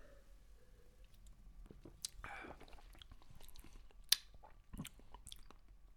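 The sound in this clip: Faint chewing while tasting food, with soft crunches, moist mouth sounds and small clicks over quiet background hiss.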